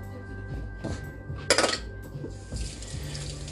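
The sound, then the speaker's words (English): Hands are washed under a running tap. A few brief clattering splashes lead into a steady, fairly faint hiss of flowing water. “I'm washing my hands”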